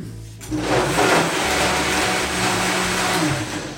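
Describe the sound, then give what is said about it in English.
A blender whirs as it blends buckwheat groats and dates, switching on after a brief pause and then running as a loud, steady, grinding roar that holds level to the end. “I'm going to blend it for almost a minute because you really want everything to get smooth and consistent in there.”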